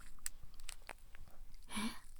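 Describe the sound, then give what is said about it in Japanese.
Crisp crunching of a salty snack being bitten into, a few short sharp bites and crackles spread over a quiet background. “サクサク、そしてかじる。”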